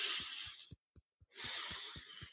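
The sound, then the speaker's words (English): A deep breath in, a short pause, then a long breath out, both soft and airy, over a faint, steady low thumping pulse. “Let's take a deep breath in and”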